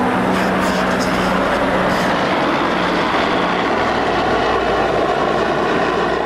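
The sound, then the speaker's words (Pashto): A continuous loud engine roar from military aircraft over Marjah, namely two foreign-force helicopters, a jet and a large reconnaissance plane. It is a steady, heavy drone with a deep rumble that never lets up. “کمپ ته ورسېدلو د مرجه پر اسمان د بارنوي ځواکونو دوه چورلکې، یوه جوټ او یوه هم ډیره ستره کشفي الوتکه ګرځي.”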